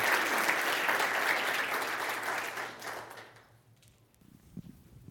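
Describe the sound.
An audience applauds to welcome a woman onto a stage to speak. The dense clapping is loud at first, then thins and fades out about two-thirds of the way through, leaving a few faint, scattered sounds.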